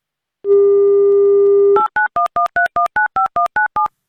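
A telephone call being dialed: a steady dial tone holds alone for over a second, then breaks into a rapid, evenly spaced series of short touch-tone beeps of varying pitch.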